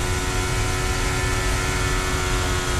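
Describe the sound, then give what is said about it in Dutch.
A Formula 1 car engine roars at nearly full throttle during a practice session at the Belgian Grand Prix. The dense, continuous drone stays steady throughout, with no talk. “Bijna vol gas, hè. Het is echt fantastisch om mee te luisteren.”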